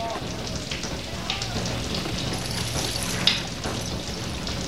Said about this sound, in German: Es regnet immer mehr.